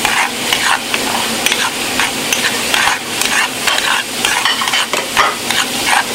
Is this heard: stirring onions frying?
yes